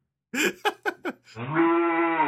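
A person imitates a cow mooing: a few short, choppy vocal bursts, then a loud, long, low drawn-out moo that holds steady to the end.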